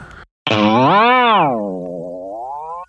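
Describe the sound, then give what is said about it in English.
A boing sound effect from a boing box: one springy, wobbling twang that swoops up and then down in pitch and fades out, following a brief burst of noise at the start. “there's this weird sound effect called the boing box.”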